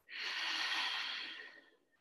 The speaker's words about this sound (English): Exhale. One more breath in. And let it out.